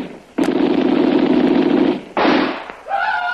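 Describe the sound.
Gunfire sound effect in a radio drama, heard alone: a long, loud crackling burst, followed after a brief gap by a second, shorter burst.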